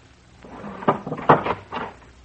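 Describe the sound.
A door being opened, giving a few dull knocks and rattling clicks of latch and wood, fairly quiet, with no voices.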